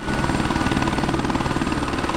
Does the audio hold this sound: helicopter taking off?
yes